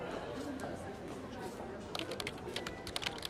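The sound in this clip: Faint typing on a computer keyboard while feedback is written down: a quick run of light key clicks in the second half over low background noise.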